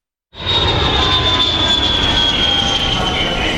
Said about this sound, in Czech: Poletíte z letiště Václava Havla Praha?